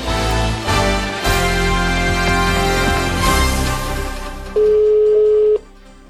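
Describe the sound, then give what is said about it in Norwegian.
A telephone call to a restaurant produces a single steady, loud ringing tone near the end, held for about a second before it cuts off, following a busier stretch of sound. “Da er du nødt til å ringe til Egon i Arendal og bestille bord til Valentinsdagen”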